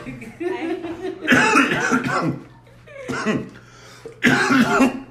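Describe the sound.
Coughing and choking after smoking: a few harsh, raspy bursts of hacking that come in rough clusters, loud and strained, with brief gaps between them.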